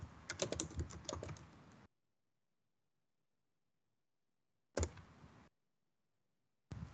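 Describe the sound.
Typing on a computer keyboard, entering a question about diabetes symptoms: a quick run of soft key clicks, then silence, a brief second burst and the start of a third.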